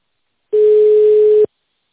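A telephone tone sounds as a call is being connected: one flat, steady, mid-pitched beep of about a second, loud and clean, with silence before and after.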